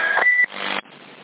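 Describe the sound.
Electronic call tones ring out over a CB radio, two steady beeps in a row followed by a quieter stretch of radio hiss.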